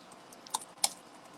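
Two soft, quiet key clicks sound about a third of a second apart as notes are typed on a computer keyboard. The rest is faint, steady background hiss.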